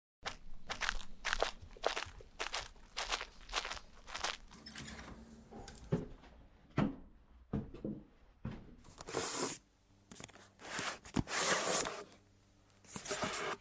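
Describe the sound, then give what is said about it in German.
Footsteps of people walking together to a library start as a steady, regular run of crunchy steps, then give way to irregular rustling, scraping and clicking handling noises with short pauses. “Okay, dann laufen wir gemeinsam in die Bibliothek und dann hören wir beide uns gleich wieder.”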